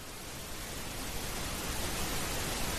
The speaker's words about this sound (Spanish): Y esto no es que se haya ido nuestra emisión, ni es una tormenta de nieve, es ruido rosa.